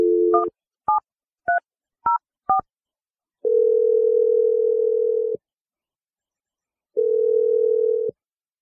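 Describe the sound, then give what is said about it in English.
Telephone keypad tones as a number is dialed: five quick beeps of differing pitch, then two long, steady ringing tones separated by a pause. “We're going to dial Adam's number right now.”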